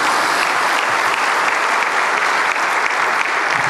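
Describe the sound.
Steady audience applause given in support of a sports club's athletes, a dense, loud, unbroken clatter of many hands clapping throughout.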